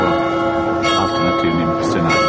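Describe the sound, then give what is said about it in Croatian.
A church bell rings from a nearby church to mark noon, its sustained, humming tones holding steadily at moderate loudness throughout. “čuli ste ovo zvono, sa obližnje Lorete, koje je označilo podne”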